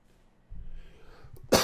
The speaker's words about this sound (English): I was going to go further with that, but then I had to cough.